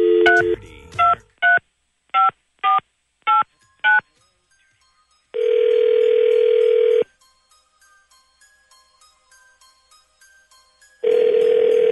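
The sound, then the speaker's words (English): Telephone dialing tones as a number is dialed at random: a tone, then a run of short, evenly spaced keypad beeps. Two long steady tones follow, separated by a silent gap. “Here we go. Dialing at random.”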